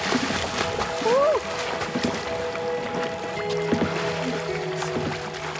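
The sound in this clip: Splashing and sloshing water as a father, newly released from prison after a retrial, goes swimming with his sons. Steady, irregular watery splashes run throughout, with faint voices calling over them.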